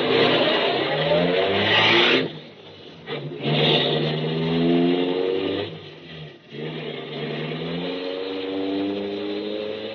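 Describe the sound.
A car's engine revs as the vehicle drives off, a loud mid-pitched drone with clear humming overtones that drops away briefly twice, then swells again and holds steady to the end.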